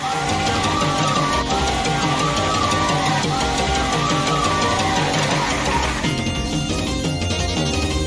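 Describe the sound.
Loud, dense arcade game audio from Smash TV: a constant wash of music, blasts and effects with no pauses, thinning slightly near the end.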